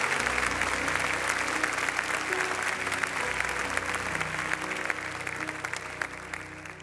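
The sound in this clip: Audience applause greets a guest speaker invited up at First Orlando, a dense, steady clatter of many hands that holds at an even loudness throughout with only a slight easing toward the end.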